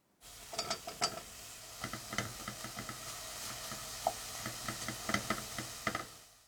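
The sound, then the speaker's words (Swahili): Mushrooms frying in a pan until soft, after onions on low heat. A steady sizzle runs throughout, with many sharp clicks and scrapes from stirring. “Kaanga uyoga hadi uwe laini na uepue.”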